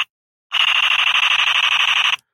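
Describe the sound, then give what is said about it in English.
A 1990s toy jet robot's electronic sound box fires its shooting effect, a loud, rapid warbling buzz that holds steady for under two seconds and then cuts off abruptly. “that's Ramjet shooting at somebody.”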